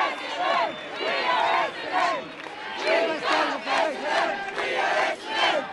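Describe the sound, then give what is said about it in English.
An Essendon football cheer squad chants in unison, many voices rising and falling in a steady series of loud rhythmic bursts. “Like the players on the field, the cheer squad have set plays, certain things that they do at particular moments. Each goal is followed by”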